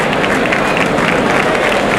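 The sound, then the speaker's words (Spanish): A bullfight crowd applauds as a continuous, loud wash of clapping that holds steady for the whole stretch without a pause. “Pone a andar el toro. El público que aplaude la estampa.”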